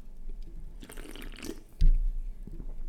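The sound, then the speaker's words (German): Sipping chilled Spezi cola-lemonade soda from a can gives soft liquid and fizzing noises, then a low thudding gulp, faint and with no talk. “Oh, schmeckt sehr gut. So eine Spezi kann man schon mal gut trinken.”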